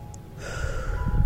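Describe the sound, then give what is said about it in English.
One slow, deep inhale, a soft airy hiss that builds gradually and stays steady to the end. “back to breathing, slowly and slowly. Inhale,”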